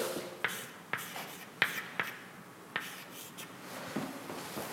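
Handwriting as mathematical notation is written out: a series of short, scratchy pen strokes and light taps, faint and irregular, with no voices.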